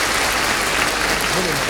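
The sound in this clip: An audience applauds loudly and continuously for a songwriter, a thick, even roar of clapping, with a voice speaking briefly near the end.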